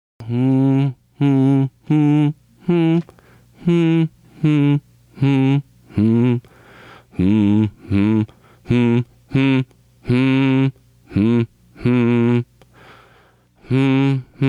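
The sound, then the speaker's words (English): A single voice hums the melody of an Elvish ode to revelry during a tabletop roleplaying game. Many short, clearly pitched notes follow one another in a steady, phrased rhythm, each separated by a brief breath-like gap. “11 is enough for you to get a rough sense of the melody that is sketched out here. And it sounds something like this.”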